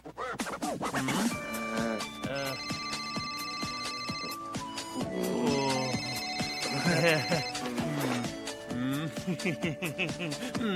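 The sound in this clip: An electronic telephone ringtone sounds in a few sustained tonal bursts, partly masked by people talking and a musical background.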